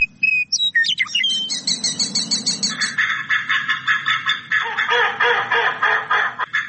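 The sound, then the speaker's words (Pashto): Migratory birds chirping at a wetland on the edge of Kabul in spring: many high, busy tweets and calls overlap continuously, with denser chattering calls in the second half and no voices. “د کابل ښار په لمن کې کولی حشمت خان هغه سیمه ده چې په پسرلي کې هر کال له 300 تر 400 ډوله مرغان دلته دمه کوي.”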